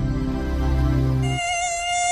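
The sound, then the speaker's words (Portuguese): An Aedes aegypti mosquito gives off a high, thin, buzzing whine, steady and fairly loud on its own. Partway through, the drone's tone shifts to a higher, sharper whine. “Aedes aegypti. Combata esse mosquito.”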